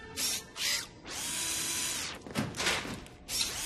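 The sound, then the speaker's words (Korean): Whirring of a power driver used to repair something broken: two short buzzing bursts, then a long steady whine of about a second, followed by a few more uneven bursts. “이것도 고칠 수 있겠어, 로키? 그럼, 당연한 말씀. 어? 드라이버.”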